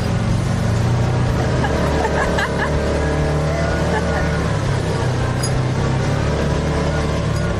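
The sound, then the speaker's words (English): A four-wheel drive vehicle's engine labours up a steep off-road track, giving a loud, continuous low drone that holds steady throughout. “This is the ultimate four-wheel driving. Oh, yes, we are going up this. There we go.”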